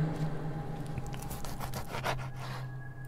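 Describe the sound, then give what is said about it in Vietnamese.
A knife being sharpened, with repeated rasping scrapes of the blade in a steady back-and-forth rhythm. The strokes are moderately loud and no voices are heard. “cầm con dao bắt đầu mài xoèn xoẹt xoèn xoẹt”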